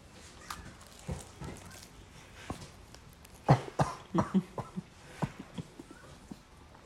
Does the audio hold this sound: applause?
no

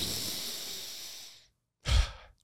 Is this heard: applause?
no

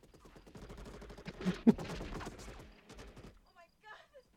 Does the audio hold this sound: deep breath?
no

